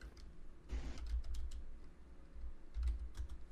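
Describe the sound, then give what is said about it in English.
Quick clicks of fingers typing on a computer keyboard, many light keystrokes in uneven bursts over a low steady hum. “Look, type Space Jam movie.”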